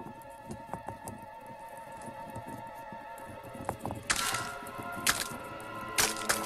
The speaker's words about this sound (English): As Marshall tries to restart the machine, hundreds of eggs start to move and begin to crack open.